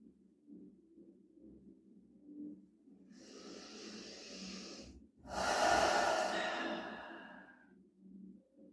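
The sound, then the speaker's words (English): Slow, deep breathing during a meditation: two long, airy breath sounds, the second louder and fuller than the first, over a soft low hum. “just listening to the breath.”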